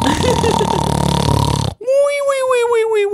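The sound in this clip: A voice imitates snoring with a harsh, raspy, rattling noise that lasts about a second and a half. It cuts off abruptly and is followed by a drawn-out voiced sound.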